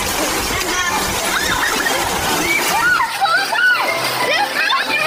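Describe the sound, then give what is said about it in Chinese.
Water splashes during a Bouyei children's water-gun fight in the fields, a steady wash of splashing under many excited, high-pitched children's voices shouting throughout. “你们看，他们就在那儿打水仗呢，好好玩”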